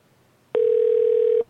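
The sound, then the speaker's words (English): Ringback tone on an outgoing telephone call: a single loud, steady, pure electronic beep lasting just under a second, opening and closing with clicks after low line hiss. “I'm going to try Jared. He's supposed to be at a family Christmas right now. He may or may not pick up”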